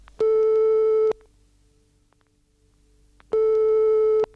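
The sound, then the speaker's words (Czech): Telephone ringback tone heard while calling someone: two long, steady electronic tones of about a second each, separated by a quiet pause of roughly two seconds, with nothing else audible. “Hned mu zavolám.”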